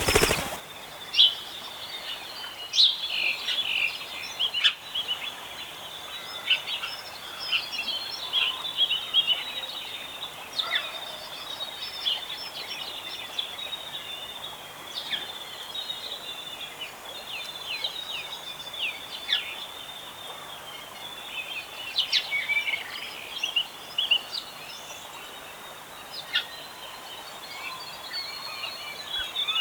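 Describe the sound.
Bush ambience beside a stream, full of birdsong: many short high chirps and trills scattered densely over a steady soft rushing hiss, with a few louder calls standing out now and then.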